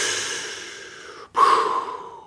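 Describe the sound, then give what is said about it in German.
A deep breath is drawn in through the belly: a long, airy breath fades out, there is a brief pause, then a second, stronger breath follows. “Wenn ihr tief einatmet, mit dem Bauch Danach mit dem Brustkorb.”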